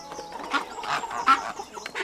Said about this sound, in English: Oats for my hens.